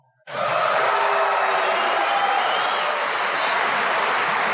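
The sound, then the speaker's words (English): An audience boos a speech on immigration and farm labor, a loud, steady wash of crowd noise that starts abruptly and holds at the same level to the end. “Yes, that was a smattering of boos that you heard in that audience.”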